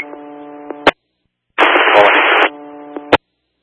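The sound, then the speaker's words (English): An unreadable radio transmission: a buzzy tone ends in a sharp pop, then silence, then about a second of harsh, loud static, then another tone that cuts off with a pop. “You're static only. Unreadable.”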